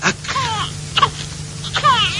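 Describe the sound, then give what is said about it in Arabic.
A hungry baby crying with an empty stomach: a few wailing, wavering cries in short bursts, with gaps of quieter breath between them, fairly loud. “شايفه بيعيط من الظلم، بيعيط من الوحشيه. لا يا اخويا، ده بيعيط من جوع، بطنه فاضي”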